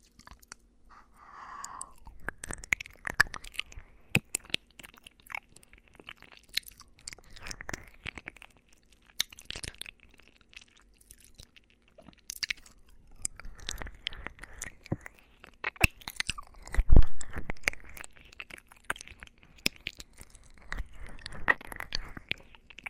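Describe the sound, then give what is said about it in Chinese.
Someone eats food, chewing and crunching steadily with many small, crisp clicks and crackles at a quiet level, continuing throughout with no talk. “我要吃了。”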